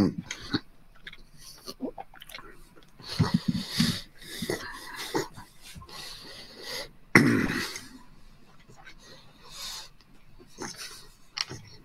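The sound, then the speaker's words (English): Chewing and rasping mouth noises right at a microphone, mixed with wheezy breaths and throat-clearing, in uneven bursts that grow louder near the middle and then settle into quieter smacks, with no talk. “He comes out, he's chewing”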